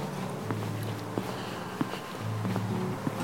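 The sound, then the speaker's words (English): Footsteps on a walk from an in-law's house back to a mother's house in Woodstock in late November: a few soft, evenly spaced steps over a steady low background rumble. “And I'm making the walk from my in-law's house back to my mom's house.”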